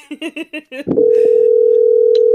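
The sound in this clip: A telephone answering machine tone: a voice speaks briefly, then a loud, steady electronic beep cuts in at one fixed pitch and holds unbroken to the end.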